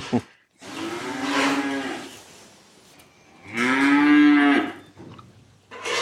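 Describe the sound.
Cows moo inside a barn: two long, loud, drawn-out moos separated by a short pause, with a brief lowing sound at the very start and end.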